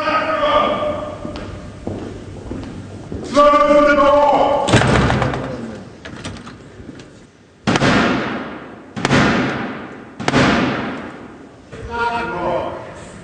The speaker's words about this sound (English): Now, that was the sound of the 350-year-old tradition of the King's Messenger, the Black Rod, knocking to gain entry after having Parliament's door slammed in his face.